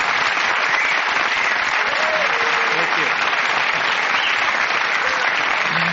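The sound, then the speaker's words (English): Audience applause for a guest at a live stage show: a dense, steady wash of many hands clapping, loud and sustained for the full six seconds without a break. “a big round of applause for Mr. Sabicki.”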